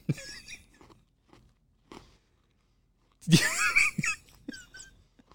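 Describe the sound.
Crunching on a hard, all-sugar seashell-shaped candy: a few short bites early on, then a louder, longer burst of sharp crunches near the end.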